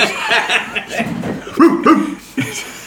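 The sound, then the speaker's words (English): A dog lets out a few short, loud barks in separate bursts, spaced unevenly, with softer voiced sounds between them. “That dog sounds different.”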